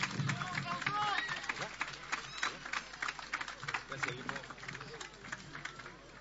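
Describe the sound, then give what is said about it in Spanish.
Audience applause at a bicentennial music event in Plaza Rodó, Durazno: scattered clapping mixes with crowd chatter and voices, easing slightly toward the end. “Un fuerte aplauso para él.”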